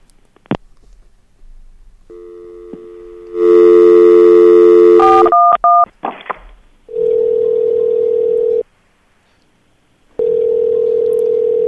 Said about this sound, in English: She dialed 411, and I thought she dialed 911.